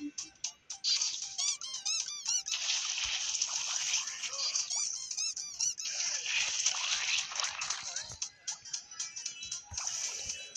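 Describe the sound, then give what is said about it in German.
Shrill squeaking from creature characters in a video game battle, where two of them surround the player; rapid high-pitched squeaks and chirps repeat in dense bursts almost without pause, with a faint splashing wash underneath. “Ich bin umzingelt von zwei Squeaks, wie man es hört.”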